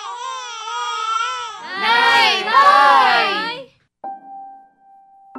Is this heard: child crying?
yes